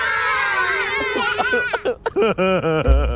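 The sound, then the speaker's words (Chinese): A person crying, with a long high-pitched wail that breaks into many short, sobbing bursts of wavering pitch over faint background noise. “你怎么又哭了？”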